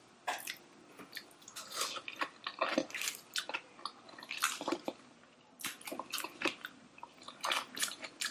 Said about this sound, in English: There's like crunching and smacking.